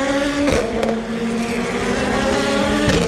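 Race cars accelerate out of a curve into a slow zone, their engines roaring loudly and steadily, with a few sharper bursts as cars sweep past.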